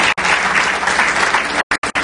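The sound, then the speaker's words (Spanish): An audience at a church service applauds loudly, a dense, steady wash of clapping that is cut by a few short silent gaps near the end. “Denle un aplauso fuerte a nuestro Dios.”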